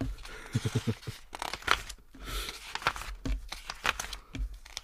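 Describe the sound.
Dry paper pages of a monthly milk payment statement being flipped through by hand, giving short, crisp rustles and crinkles in irregular bursts with a few sharper crackles.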